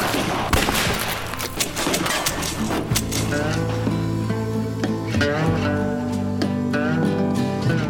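A volley of rifle fire as revolutionaries are shot against a wall: many sharp, irregular shots crack one after another across the whole stretch over a steady tonal backdrop.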